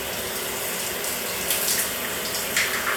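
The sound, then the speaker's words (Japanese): Water pours steadily as shampoo suds are rinsed off someone's hair. It makes a continuous hissing splash with slight surges and no voices. “はい、頭流すけ。目つぶり、”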